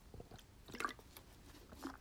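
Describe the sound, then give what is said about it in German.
Soft, quiet sipping and swallowing of a drink, a few moist clicks and small gulps with no talk. “muss einmal einen Schluck trinken.”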